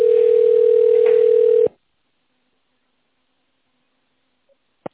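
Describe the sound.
A telephone ringing tone while a call connects to an operator: one steady, mid-pitched continuous tone lasting under two seconds, then silence broken only by a faint blip and a short click.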